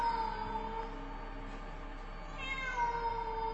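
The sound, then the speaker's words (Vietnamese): A black cat meows at night in a faint, drawn-out, wavering cry. Its tone is thin and harmonic and lingers through the whole stretch, with no talk. “Trong đêm, tiếng mèo kêu vang lên làm cho Thảo My”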